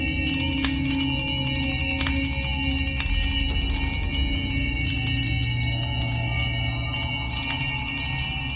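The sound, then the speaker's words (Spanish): Many house bells ring loudly together in a continuous, dense metallic jangle of high tones that keeps going for the whole stretch without a break. “Oscilaba tan suavemente al principio que apenas producía sonido, pero pronto sonó estrepitosamente, y lo mismo hicieron todas las campanillas de la casa.”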